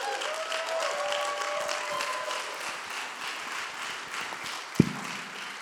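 Audience applause and cheering at a church event as ministry trainees are welcomed. Steady, fairly soft clapping with a few whoops early on is broken by a single sharp thump near the end.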